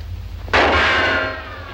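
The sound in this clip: A gunshot strikes a bell: one sharp, loud crack sets off a bright metallic ring that sustains and slowly fades, with a low steady hum underneath and no voices.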